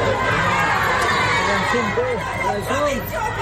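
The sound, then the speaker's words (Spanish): Crowd at a protest march in central La Paz, near Plaza Murillo: a dense, continuous din of many voices with shouts and calls rising out of it, steady and loud throughout. “Marcha de protesta en el centro de la ciudad de La Paz.”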